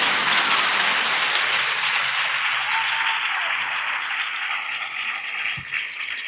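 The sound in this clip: Audience applause at a carnival opening-speech event in Archidona: dense, continuous clapping from many hands, loud and steady throughout, easing off slightly toward the end, with no voices over it.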